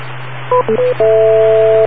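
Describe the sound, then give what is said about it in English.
DTMF dialing tones keying up a UHF radio: three short dual-tone beeps in quick succession, then one long sustained tone, all loud and clear over a constant low electrical hum. “I dial up the UHF machine.”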